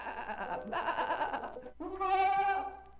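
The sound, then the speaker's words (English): A baby lamb bleats for its mother in several wavering, harmonic cries, the final bleat higher and louder than the ones before it. “That's a baby lamb calling for its mother.”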